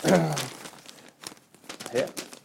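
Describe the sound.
Newspaper pages being handled, crackling and crinkling in a few bursts. The loudest rustle comes at the start, followed by quieter crumpling and flapping of the paper.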